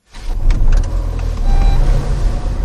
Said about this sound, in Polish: Ale zobacz, jeden samochód na tej ulicy, gdzie normalnie jest intensywny ruch.